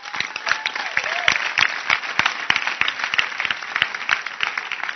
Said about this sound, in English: Can you clap your hands for the dancing stars?